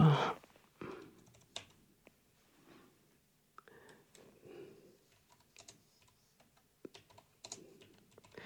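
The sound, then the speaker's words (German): Typing on a computer keyboard, with faint, irregular key clicks in short bursts and scattered single taps, separated by brief pauses. “Sie hören mich jetzt tippen.”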